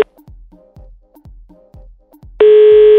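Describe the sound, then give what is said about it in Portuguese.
A telephone call being placed: a run of short, evenly spaced low pulses gives way to a loud, steady tone that holds to the end. “Vamos ligar para ele, ver qual que é.”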